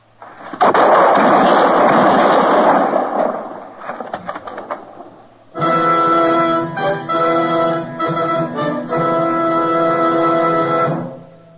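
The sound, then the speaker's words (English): Gunfire in a Western drama scene bursts out as a loud, rumbling volley lasting a few seconds, then fades, followed by a loud swell of sustained music. “The shots, Matt.”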